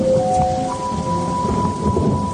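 Thunderstorm with rain and thunder: a dense, steady roar of heavy rain under a low rolling rumble of thunder, with a faint sustained tone running over the noise.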